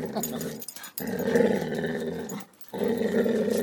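A dog growls low and rough in three sustained stretches separated by two brief pauses, the rumbling snarls fairly loud and heard alone without talk.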